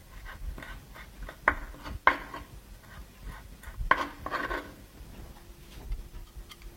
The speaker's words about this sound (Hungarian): Körülbelül egy ilyen kis csokornyira lesz szükségünk. Felaprítjuk jó apróra, és hozzárakjuk.